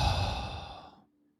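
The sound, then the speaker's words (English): A deep breath out: one long, breathy exhale that starts strong and fades away in about a second, with no talk. “One deep breath in. And one deep breath out.”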